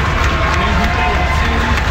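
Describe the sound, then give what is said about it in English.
A loud crowd cheers and shouts as Mexico's Los Topos search and rescue team steps out of an airport in Venezuela. The noise is a dense, continuous roar of mixed voices that holds at one level throughout. “One of Mexico's search and rescue teams, called Los Topos, meaning the moles, stepped out of the airport in Venezuela to warm applause.”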